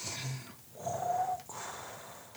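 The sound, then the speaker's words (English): A voice imitates a giant creature's rhythmic, rumbling breathing: a few breathy, snorting exhales with a rough, growly edge, fairly faint and separated by short pauses. “Like something giant breathing.”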